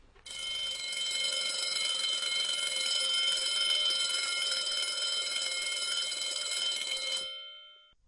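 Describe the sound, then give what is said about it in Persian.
School bell ringing: a bright, metallic electric bell rattles continuously and evenly for about seven seconds, then stops with a short fading ring. “یادش بخیر، دقیقاً صدای زنگ مدرسه.”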